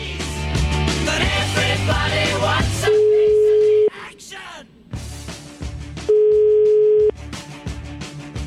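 An outgoing telephone call rings out with two steady, loud ring tones, each lasting about a second, separated by a few seconds of other mixed sound.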